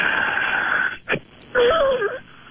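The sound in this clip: A patient breathes out forcefully during a breathing exercise, pushing out as much air as possible. A hissing, noisy breath and a brief click come first, then a louder wheezing exhale with a wavering, whistly tone.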